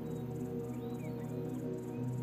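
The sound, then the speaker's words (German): Crickets chirping in a quick, steady pulse of high, thin trills that repeat evenly over a constant low drone. “Du hörst das Zirpen von Grillen, entfernt das Rauschen des Meeres.”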